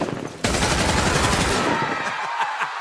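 A gunshot in a radio drama fires as one abrupt, loud blast, then rumbles and fades slowly over the following seconds.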